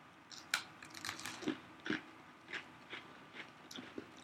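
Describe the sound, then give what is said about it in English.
Faint crunching as someone bites into and chews an Oreo cookie. Many crisp crunches come at irregular intervals over soft background noise. “I'm going to do what I've been doing the past couple episodes, eat the cookie first, then the frosting, and see how it goes.”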